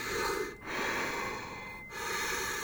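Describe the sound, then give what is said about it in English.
Deep breathing through a gas mask: three long, loud, hissing breaths with short pauses between them. The airflow has a rough, filtered rasp. “we can measure quite accurately the pressure rise and fall inside the gas mask, which is directly correlated to my lung capacity as I'm breathing in and out. So as I'm breathing deeply,”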